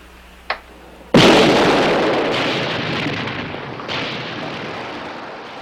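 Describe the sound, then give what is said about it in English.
A short click, then a loud explosion from a light-switch detonator rigged in a mine shaft, its booming burst decaying slowly into a long rumbling roar. “Frank doesn't realize that the light switch is actually the detonator.”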